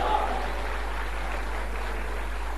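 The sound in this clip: Audience applause after a performance of traditional ballad singing: a dense, even wash of clapping that runs the whole time and stays fairly faint.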